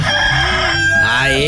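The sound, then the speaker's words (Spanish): A hoarse, rough-voiced rooster crows in one drawn-out call that fills the whole short clip, strained and raspy rather than clear. “ya cantó el gallito, ya pues a levantarse. Ahí está el gallito, caramba. Este anda medio ronco, este gallo.”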